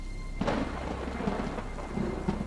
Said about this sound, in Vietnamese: Gió bắt đầu thổi, mang theo vài hạt mưa đêm. Một hạt, hai hạt, rồi ngay tức thì sau, mưa ào ào lên dữ dội.